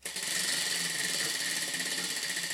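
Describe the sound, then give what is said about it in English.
A prize wheel spinning to pick a streaming service gives off rapid, continuous clicking, a fast even rattle of ticks that holds steady in loudness throughout. “All right, and for the first spin to figure out what streaming service we're going to watch it on.”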